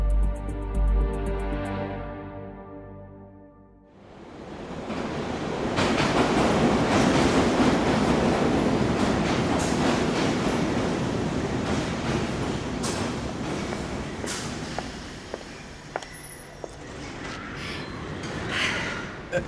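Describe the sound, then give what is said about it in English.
A London Underground tube train rumbles loudly and steadily, with rhythmic clicks and clatter over the noise, after a brief low humming tone at the start. “Do you want to get on this tube?”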